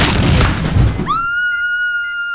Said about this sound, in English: Boom. Headshot.